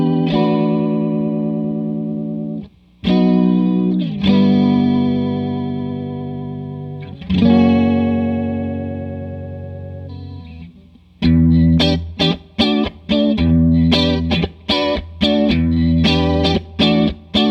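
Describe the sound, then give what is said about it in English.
An electric guitar plays through a TC Electronic Limited Edition Chorus Flanger pedal: a few long, swirling sustained chords ring out, then give way to choppy, rhythmic strummed chords, with no voices. “Yeah, if I heard that in a track, I would never think, oh, he's got a flanger on there. Right. It doesn't sound like that. It almost sounds like it could be just a kind of a chorus being pushed, right?”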